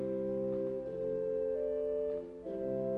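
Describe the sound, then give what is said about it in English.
Pipe organ flute stop on the swell sounds held notes with a pure, sweet tone. The steady chord shifts to new pitches a few times, alone and without talk. “And compare that to one of the flutes on the swell,”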